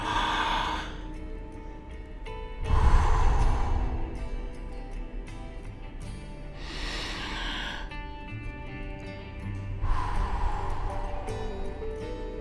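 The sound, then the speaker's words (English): Deep breaths taken slowly, four long, airy breath sounds rising and fading at unhurried intervals, each one swelling to a peak before easing back into near quiet. “So let's take a few deep breaths now in preparation for that.”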